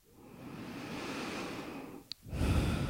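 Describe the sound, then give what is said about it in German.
Deep breaths during a guided meditation: a long, slow, airy inhale swells and holds for about two seconds, pauses briefly, then gives way to a stronger, breathier exhale. The breathing is soft and quiet throughout. “Wenn du soweit bist, dann nimm ein paar tiefere Atemzüge ein und aus.”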